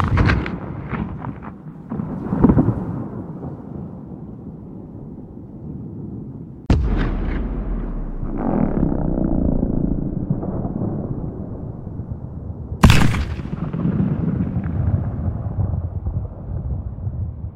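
Cannons fire rounds outdoors in a lush valley: three heavy booming blasts, each rolling into a long, low rumble and echo that fills the space before the next shot, with no voices.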